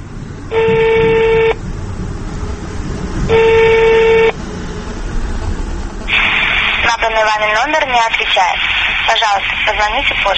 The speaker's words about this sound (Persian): من از تلفن من بید استفاده کنیم رقمش هم میچینیم